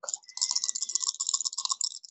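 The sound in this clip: Dice rolling and rattling during a tabletop role-playing game, a quick, continuous stream of small bright clicks and clatters lasting about two seconds, fairly quiet.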